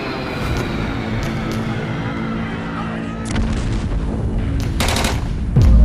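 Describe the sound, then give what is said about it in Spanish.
Bombs and gunfire from fierce fighting in 1980s Beirut: a dense, continuous rattle of shots mixed with heavy booms, growing louder toward the end. “Son los años 80 y lo siguiente que escuchan sus tiernos oídos ahora son bombas y disparos.”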